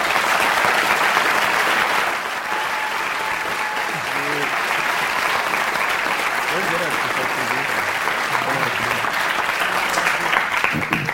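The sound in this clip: Audience applause welcoming a speaker: a thick wash of clapping that is loudest in the first two seconds, then continues evenly underneath talking voices to the end.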